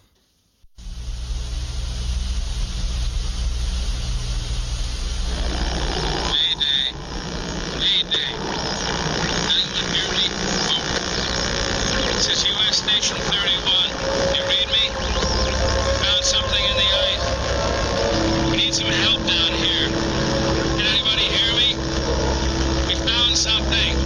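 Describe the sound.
Trailer audio for the 1982 film The Thing: a loud, steady low rumble like an engine drones throughout, with scattered higher chirping and rattling sounds layered over it from about six seconds on.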